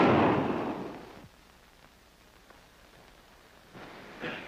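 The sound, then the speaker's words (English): A gunshot from a gun cracks out as a broad, fairly faint burst that fades away over about a second, followed by quiet noise and a smaller burst near the end. “I've been shooting in the wrong direction. You keep that gun away, Hanby”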